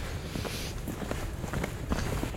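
Footsteps of people walking south along a beach near Guéthary, an irregular series of soft crunching steps over a constant wash of background noise.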